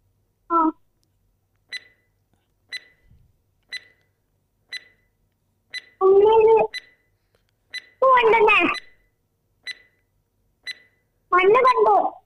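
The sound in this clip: A quiz timer beeping after being started: short, bright electronic beeps repeat steadily about once a second, while voices speak in a few brief bursts between and over them.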